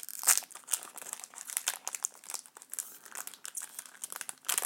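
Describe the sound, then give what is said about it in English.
A Dominion card game booster pack's plastic wrapper is crinkled and torn open: quiet, continuous crackling and crunching with irregular bursts of sharper rustling, alone with no talk. “because I don't get to open packs very often, and I think it's fun. So I'm going to open this up, and we'll take a look at it.”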